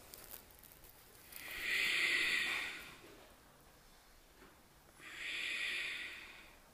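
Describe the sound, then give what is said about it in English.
Ujjayi breathing during a power flow yoga class: two long, airy, hissing breaths drawn in and out through the nose with a constricted throat. Each lasts about a second and a half, separated by a quiet pause. “Maintain Ujjayi. Breath in and out through your nose.”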